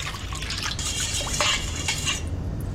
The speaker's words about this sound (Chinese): 盆中加入适量的食用盐，加入料酒100克，加入适量的生抽，最后加入适量的清水拌匀